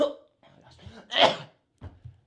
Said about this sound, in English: Did that sound like a sneeze? My sneezes sound like coughs.